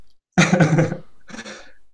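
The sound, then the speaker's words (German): A person coughs in two harsh bursts, the first louder and the second softer, with no other sound around them. “Ein Huster.”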